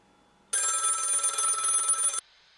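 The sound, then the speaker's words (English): A telephone bell rings in a studio: one loud, buzzy, continuous ring lasting under two seconds, with near silence before and after. “The phone in the studio that I'm sure was not here just moments ago is ringing.”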